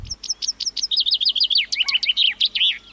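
Chaffinch song: a loud, rapid series of high descending notes that quickens into a fast trill and ends in a sharp flourish, lasting about three seconds with no other sounds.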